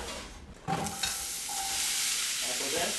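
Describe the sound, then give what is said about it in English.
Apples sautéing in a pan with oil, butter and sugar: a steady hissing sizzle that builds and holds, with a few scraping stirring knocks near the start. “Apples in. Nice. If we hear something, we're cooking. I sauteed the apples in a pan with some oil and butter and sugar until they're crisp tender.”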